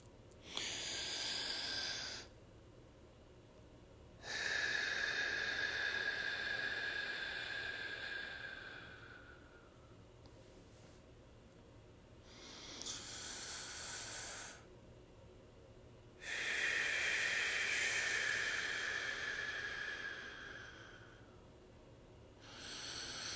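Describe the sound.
Deep, slow breathing before a prayer: long, airy inhales and exhales alternate with quieter pauses. The breaths are soft and breathy, with no talk.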